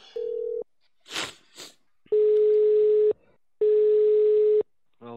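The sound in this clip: Telephone line tones after dialing an 8-800 number: a short steady beep and two noisy bursts, then two long, even ringing tones at a single pitch with a pause between them.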